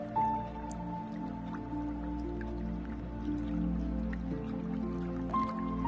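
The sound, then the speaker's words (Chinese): Soft, steady dripping and trickling of spring water runs through the whole stretch, quiet and even, under a low sustained tonal drone. “泉水源源不断的冲洗着你的身体。”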